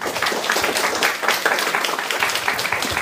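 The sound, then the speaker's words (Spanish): Audience applause at the close of a talk on a comic series: a dense, steady patter of many hands clapping that runs unbroken from start to finish at an even loudness. “Les pido un aplauso para mi buen amigo Beto Calvo”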